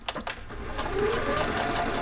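A sewing machine stitching angel gowns gives a steady, whirring mechanical hum after a couple of quick clicks at the start.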